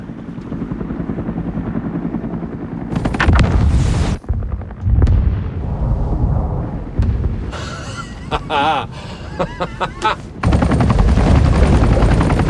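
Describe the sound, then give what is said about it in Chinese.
Depth charges dropped into the water against a creature go off in heavy booming blasts and rumbling surges, mixed with the whir of a helicopter and sharp bursts, loud throughout with several abrupt breaks. “现在停船，马上停船。 正在投放深水炸弹。”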